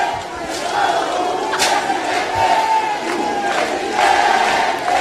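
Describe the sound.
Audience cheering wildly at Luigi Di Maio's surprise victory, a continuous loud roar of many voices with repeated shouts and whoops breaking out over it throughout.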